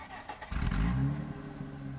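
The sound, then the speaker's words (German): A car engine starts up, a sudden low rumble that catches and settles into a steady running drone. “Er startete den Wagen”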